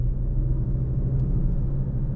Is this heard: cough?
no